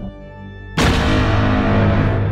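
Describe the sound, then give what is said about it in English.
Weapons fire bursts in suddenly after a steady low tonal hum, becoming a loud, sustained rushing roar that holds for more than a second rather than breaking into separate shots. “Open fire.”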